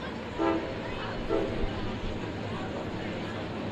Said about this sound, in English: Freight train rolling on behind us.